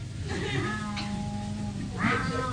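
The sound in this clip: A cat meows in two drawn-out, wavering cries separated by a pause, heard over a steady background noise.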